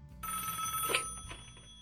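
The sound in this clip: A telephone rings: one sustained, bright electronic ringing tone lasting well over a second, fairly faint and with no voices.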